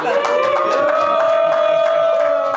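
An audience applauds and cheers for Team Bitcoin at a live Bitcoin versus Gold debate in Vegas, with steady clapping and sustained whoops running through the whole moment.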